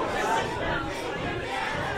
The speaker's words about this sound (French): on voit que le public est en train de prendre place. On s'installe